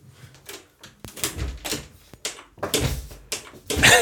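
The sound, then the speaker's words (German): A door being shut, with a series of sharp knocks and clattering thumps that recur irregularly throughout, ending in a louder burst. “Tür zu.”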